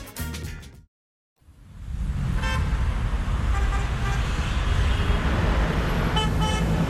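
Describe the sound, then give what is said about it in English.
Busy city streets of Rabat, Morocco, with a steady wash of traffic noise and a few short car horn toots cutting through. A different brief sound and a moment of silence come first. “This is the sound of the city of Rabat.”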